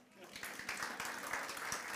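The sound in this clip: Applause from a Pentecostal church audience: faint, dense clapping that swells and stays steady, with voices talking over it.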